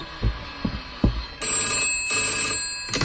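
A telephone rings in repeated bright, trilling bursts, a few rings in all, preceded by three dull, low thumps.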